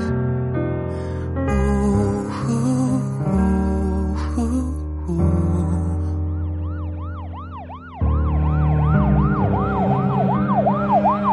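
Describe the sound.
An ambulance siren wails loudly in fast repeated rising-and-falling sweeps as the emergency vehicle arrives behind. Tonal music plays first, and the siren takes over from about the eighth second.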